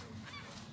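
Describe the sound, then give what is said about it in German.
Seagulls calling in a quiet street in Warnemünde, a single short, faint honking cry over soft background noise. “Das Einzige, was man hört, ist die Kirchturmglocke und eben die Möwen.”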